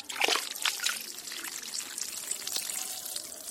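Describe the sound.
Water trickles and splashes from garden fountains and pools, a steady bright babble with a few sharper splashes near the start, carrying on unbroken at moderate loudness.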